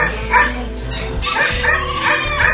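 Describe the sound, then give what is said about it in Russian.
A dog barking and yelping in a village after nearly biting visitors: a few loud, sharp barks and higher yips break through a steady, noisy background. “уйми проклятую собаку, чуть не загрызла нас!”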